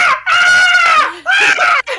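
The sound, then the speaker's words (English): A voice imitates a four-year-old girl screaming while splashing about alone in a swimming pool, giving two loud, high-pitched, wavering shrieks with a brief break between them. “She, like, splashes about in the pool, and she's like four. She can go by herself, but she, like, screams the whole time.”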